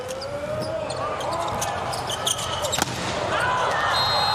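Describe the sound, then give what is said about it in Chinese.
A volleyball is served by a number 27 middle blocker in a Ukraine–Poland match, heard as a single sharp smack under commentary voices and steady crowd noise. “27号副攻发球。”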